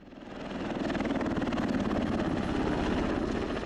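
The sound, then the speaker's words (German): An NH90 military helicopter in flight gives a steady, rapid rhythmic rotor beat over a broad engine roar, holding an even level throughout with no other sounds. “Das, was Sie gerade gehört haben, das ist ein NH90 in der Luft.”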